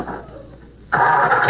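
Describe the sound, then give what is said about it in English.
A motor kicks on after a starter button is pressed. A low murmur lasts just under a second, then a sudden loud, steady running roar holds to the end. “turn that motor off.”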